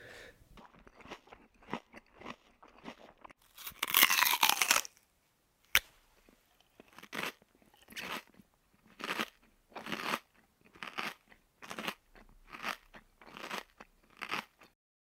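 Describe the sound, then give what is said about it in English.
Crunchy tacos being bitten and chewed: a loud early burst of crackling crunches, then many evenly spaced crunching chews in a steady rhythm with short gaps between them, with no talk over them. “Well, we can enjoy a taco right now. Let's do it. Okay. Let's do it. Insert taco eating noises here.”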